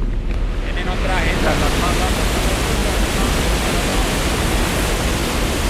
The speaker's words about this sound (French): Ce bruit est celui de l'eau du barrage de la ville d'Ituango, dans la région d'Antioquia.